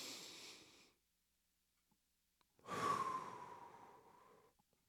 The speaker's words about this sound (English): Let's all take a breath. Take another one.